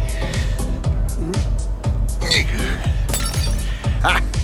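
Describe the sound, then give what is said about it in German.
A window pane shatters after being hit by a thrown potato on the second floor: a bright crash followed by scattered tinkling and clattering of glass over several seconds. “Die nächste traf immerhin die zweite Etage und schlug dort eine Scheibe ein.”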